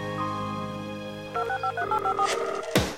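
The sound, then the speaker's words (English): Telephone keypad touch tones dialing a voicemail password. A steady tone plays first, then a quick, even run of several short dual-tone beeps, ending in a brief noisy burst. “Please dial your password and press pound.”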